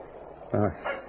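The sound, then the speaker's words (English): Two short, high-pitched yaps from a little dog, the first louder and longer than the second, over a faint steady hiss. “It's a dog. A little dog barking.”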